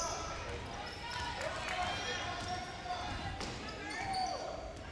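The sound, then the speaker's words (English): During a women's basketball game between Southern Union and Enterprise State, a ball is dribbled with repeated soft thuds in a steady rhythm, heard beneath a commentator's talk and gym noise. “And Southern Union can just dribble it out if they want to.”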